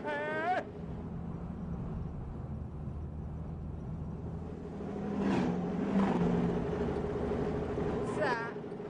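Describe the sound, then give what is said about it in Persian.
A car engine droning steadily with the gas pedal held to the floor, a low humming roar that stays fairly even throughout while people talk over it. “نیم ساعت داریم به کوب گاز میدیم هنو بنزینش تموم نشده”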